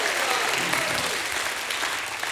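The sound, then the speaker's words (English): A church audience claps their hands in praise, a dense, loud and steady applause that fills the whole clip without a break. “Give God a hand clap and a shout of praise.”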